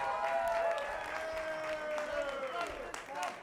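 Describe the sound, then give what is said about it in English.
An audience applauds at a cabaret show. The clapping is steady and sustained, with some tonal vocal sounds rising over it from the crowd. “A big applause for Stefan.”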